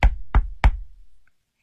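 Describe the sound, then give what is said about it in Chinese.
Three firm knocks on a house door, low and thudding, evenly spaced and heard alone with a brief ring-off after the last one. “陈东敲响了魏伯陵家的门口”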